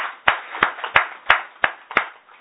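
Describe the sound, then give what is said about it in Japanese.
Clapping in unison at a gathering to celebrate the 66th and 58th birthdays of two guests: six crisp, evenly timed claps that repeat at a brisk, regular beat. “それぞれ小林さんは66歳、中野佳子さんは58歳誕生日ですので盛大な拍手でお祝いを。”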